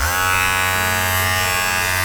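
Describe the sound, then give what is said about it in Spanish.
A smart electric toothbrush hums with a dense, steady motor buzz, its tone shifting partway through as the speed changes. “Mi cepillo inteligente alterna entre dejar las cerdas mustias a ir al cuádruple de su velocidad, lo que me provoca unas serias heridas en las encías.”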